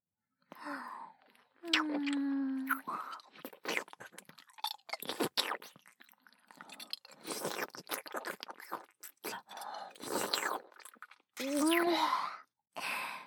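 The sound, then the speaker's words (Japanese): Wet kissing and mouth sounds as sake is passed mouth to mouth: soft smacks, slurps and breathy sighs with a few voiced murmurs, all fairly quiet. “もっとチューしよう。お酒の口移し。”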